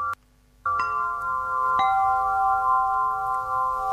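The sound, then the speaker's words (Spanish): A samafón, a resonant instrument played in a relaxation and breathing session, is struck three times. After a short silence, a long shimmering ringing tone sustains steadily, renewed by each strike. “Este es el samafón, escucha.”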